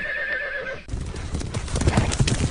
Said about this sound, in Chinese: 1000多人的马队向围场奔跑，扬起了一溜的黄尘